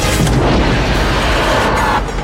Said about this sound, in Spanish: Otro torpedo, pero este fue activado al lanzarlo, señor.